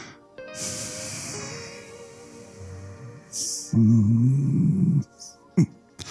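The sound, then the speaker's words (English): A long exhale pushed out through the nose: a drawn-out, airy hiss at the start, followed by further breathy, snorting sounds over a faint tonal background. “You let a long exhale out of your nose holes, not your mouth, because your mouth could have some stink in it. So do like this.”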